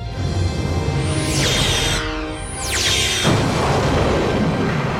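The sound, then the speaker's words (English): A particle beam strikes and destroys a target in Star Trek: The Next Generation: a steady rumbling roar carries two sharp, high swooping tones that glide downward, the second one running into a broad noisy surge. “If we project a particle beam, we may be able to produce a disruptive nuclear effect within the core. Aye, sir. Impact in 17 seconds. Particle beam activated.”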